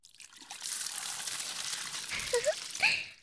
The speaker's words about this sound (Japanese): 洗い終わりました。じゃあ流しちゃいますからね。